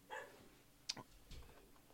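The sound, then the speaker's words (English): A dog barking somewhere in a home, a few faint, short yips or barks spaced apart, quiet and with no talking. “Sorry, you might be able to hear my dog in the background.”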